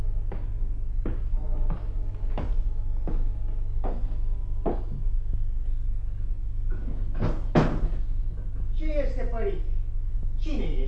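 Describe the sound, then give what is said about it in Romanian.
Knocking on a door by a wandering monk: a steady series of sharp knocks over a loud low hum, followed by a couple of heavier bangs and then voices. “Tată, bate cineva.”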